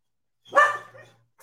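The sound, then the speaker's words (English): A dog reacting to someone outside an apartment complex gives one loud, sharp bark with a short rough tail. A faint brief yelp follows after a pause. “The dogs hear somebody outside.”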